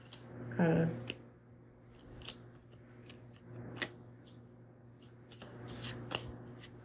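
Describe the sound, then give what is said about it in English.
Oracle cards, Buddha wisdom cards, are shuffled and pulled, giving faint papery rustling with a few soft flicks and taps, quiet and alone. “Let's pull some Buddha wisdom cards, oracle cards, some divine messages.”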